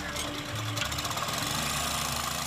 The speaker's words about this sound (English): The compressor pumps air into fabric pontoons attached to the trap's skids, which rest on the seafloor.